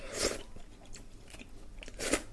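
Crunching bites into helmet crab meat and shell: two sharp, loud crunches at the start and end, with quieter chewing and crackling between, and no talk.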